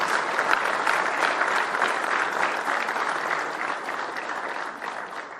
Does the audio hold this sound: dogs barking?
no